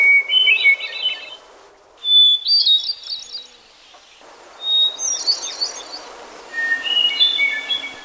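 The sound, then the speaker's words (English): A hermit thrush sings four separate phrases. Each one opens on a held pure whistle and breaks into a fluty, high trill. The phrases shift in pitch from one to the next, with quiet gaps between them. “This is a song of the hermit thrush again”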